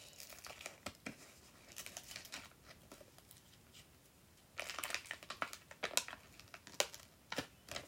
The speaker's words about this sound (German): Etikett abmachen, weil ich das nicht mag.